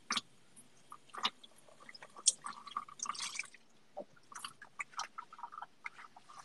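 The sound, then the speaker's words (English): Dishes are washed with water: many small clinks, taps and drips come in an uneven, quiet patter. There is no steady stream of running water. “Okay, washing ASMR too.”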